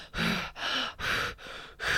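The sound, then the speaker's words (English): A voice imitates the erratic breathing of holotropic breathwork with five quick, loud breath bursts in a rapid, even rhythm and short gaps between them. “if you aren't familiar with holotropic breathing, I'll maybe give an example, but it's like erratic breathing for maybe like 45 minutes.”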